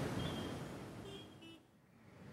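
Steady roar of road traffic with a few short car horn toots rising above it, the honks brief and high, the broad engine and tyre noise continuous and fairly loud throughout.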